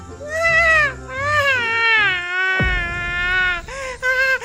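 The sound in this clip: A voice acts out the loud wailing and sobbing of a crying snail in a children's story. Long, drawn-out, high-pitched cries rise and fall, with brief breaks between them.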